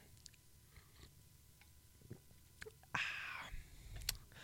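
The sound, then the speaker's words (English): A person takes a drink: a few faint mouth clicks, then a brief louder hissing slurp-like burst near the end, all quiet with no talking. “Let me get a drink.”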